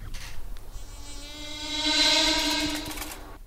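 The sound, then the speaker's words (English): A fly buzzes past a row of megaphones: a steady, harmonic, whining drone that swells to a loud peak in the middle and then fades away. “It's the Simpsons where Bart lines up all of the megaphones and the fly goes past.”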